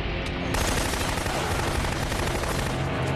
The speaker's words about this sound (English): I'd like to know where this guy got a machine gun.